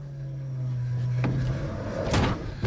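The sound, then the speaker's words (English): A door is forced open a few inches against a barricade. A low steady hum runs until midway, and a few sharp knocks and scrapes follow as the door jams. “The door opens a few inches, but the barricade holds.”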